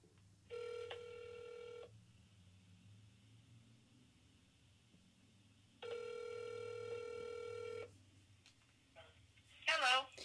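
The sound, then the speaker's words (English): Ringback tone of an outgoing telephone call: two long, steady, buzzing ring bursts separated by a long pause, over a low background hum, with a brief scrape of noise at the end. “Okay, dialing up Bev.”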